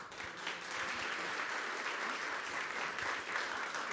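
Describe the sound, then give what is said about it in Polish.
Applause fills a Polish award ceremony honoring a travel author, a continuous, even wash of many clapping hands, steady and fairly faint throughout. “To jeszcze raz poprosimy o brawa.”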